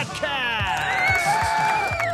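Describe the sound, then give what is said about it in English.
A recorded crowd cheering effect opens a basketball show, a dense wash of cheers and whoops running steadily beneath a loud, drawn-out announcer voice. “And now, stand and cheer for your Talking Basketball”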